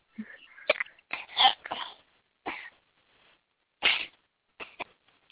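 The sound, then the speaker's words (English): Someone coughs, sneezes and hiccups in a quick cluster of short, faint, breathy bursts, each separated by brief silences, with no talk in between. “She just coughed and sneezed and hiccuped at the same time.”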